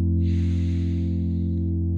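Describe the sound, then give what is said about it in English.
One long, deep cleansing breath rushes softly through the airway for over a second over a steady low electrical hum, with no talking. “take a nice, deep cleansing breath as you connect to these two centers in your body.”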